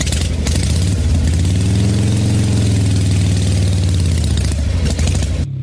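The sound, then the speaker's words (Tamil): A motorbike engine runs at idle with a throbbing, low mechanical rumble. Its pitch swells briefly in the middle and settles back, staying loud and continuous throughout. “வாப்பா போகலாம், வண்டி எடுப்பா.”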